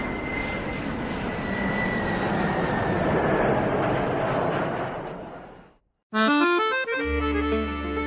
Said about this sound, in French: Attends, regarde! Un avion! Tu vois?